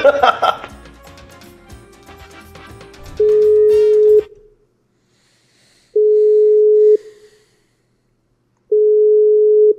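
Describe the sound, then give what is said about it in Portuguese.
A telephone call rings out unanswered as a steady single-pitch ringback tone. Three loud tones, each lasting about a second, are separated by long silent pauses. A short stretch of other sound comes before the first tone. “Vamos ligar pra ele. Ah, não quer atender.”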